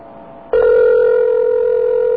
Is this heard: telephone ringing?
yes